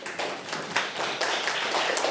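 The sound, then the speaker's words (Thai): A school class clapping hands together in a short round of applause, dense and continuous overlapping claps lasting about two seconds. “ปรบมือกับทุกคนเลยค่ะ”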